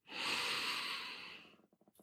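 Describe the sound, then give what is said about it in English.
A deep breath is drawn and released as one long, soft, airy rush that slowly fades, followed by a few short, quiet puffs of breath at the end. “just start by taking a deep centering breath”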